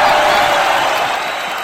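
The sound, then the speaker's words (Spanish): Applause from the audience of a talk show: a dense, steady wash of clapping with some crowd noise mixed in. It is loud at first and eases slightly toward the end. “¡Aplausos, por favor! ¡Ahí lo estoy!”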